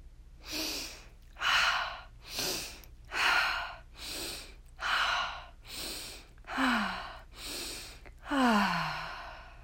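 Slow, deliberate breathing paced as inhales and exhales, a long, even series of about ten soft, airy breath sounds that swell and fade in a steady rhythm with short pauses between them.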